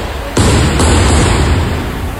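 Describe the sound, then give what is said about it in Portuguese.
Fireworks set off inside the Cooper parking lot: two sharp bursts arrive close together, followed by a loud, sustained crackling roar that holds steady to the end. “vai soltar foguete aí, agora, dentro do estacionamento da Cooper”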